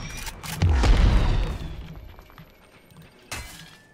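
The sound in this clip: Shotgun fire in a shooter video game, a heavy booming blast with a long, fading tail, followed a few seconds later by a shorter, quieter crack.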